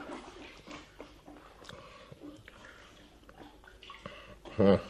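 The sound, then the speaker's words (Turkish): Hands being washed in a bucket of water: faint, soft sloshing and dripping that continues throughout, swelling briefly near the end, with a voice at times. “Müsaadenizle gidip elimi yıkayayım şu kovada.”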